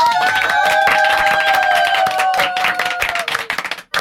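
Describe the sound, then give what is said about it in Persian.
Clapping and applause break out in honour of the audience's wishes during a studio show. A held tonal sound drifts slowly downward in pitch above the busy claps, which thin out and turn patchy near the end. “اصلا چیه نظرتون اگه بشینیم دور هم دیگه همینجوری تا آخر سال برای هم آرزوهامونو بگیم و دست بزنیم و کف بزنیم؟ آقا به افتخار آرزوهامون.”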